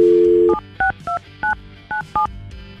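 A telephone keypad dials a phone number: a steady dial tone, then a quick series of short, crisp two-tone beeps at an uneven pace, loud and clear with no talk.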